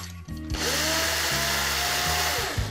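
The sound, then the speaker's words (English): A blender grinds pine nuts into a fine powder. A loud, steady motor whir kicks in after half a second and runs to the end, with a few brief stutters in the low hum as the nuts break up. “And the rest of the pine nuts are going to blend to fine powder.”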